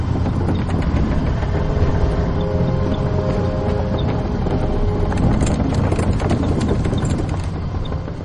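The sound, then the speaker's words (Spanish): An armored tank rumbles and clanks heavily as it drives off a damaged crossing platform onto the east bank of the Rhine, a loud, dense and steady roar throughout. “Finalmente, el tanque llega a tierra firme en la orilla este del río. Un vehículo blindado ha cruzado el Rin.”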